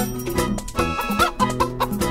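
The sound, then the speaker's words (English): A hen clucks in a quick run of short, throaty clucks at a fairly steady pace, moderately loud throughout. “Uh-oh, the hen's on the loose.”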